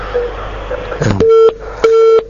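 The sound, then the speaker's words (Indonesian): Busy tone after a telephone call disconnects: a burst of crackly line noise, then two steady mid-pitched beeps of equal length separated by a short gap, loud and clear. “mohon maaf terputus tadi sambungan teleponnya”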